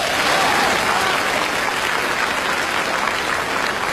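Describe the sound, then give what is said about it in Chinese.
Warm, thunderous audience applause, with many hands clapping in a dense, continuous roar that holds at an even, loud level from start to finish. “观众朋友们，这个掌声啊够多么热烈。 太热烈了。”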